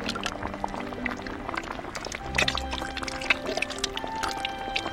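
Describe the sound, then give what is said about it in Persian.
Ingredients and tomato sauce being poured together into a bowl, giving a wet, sloshing pour with scattered clinks and clatters throughout at a moderate level. “حالا باید تمام موادو با هم بریزم توی یه ظرف. بعدش هم مایه رو اضافه میکنم، گوجه فرنگی،”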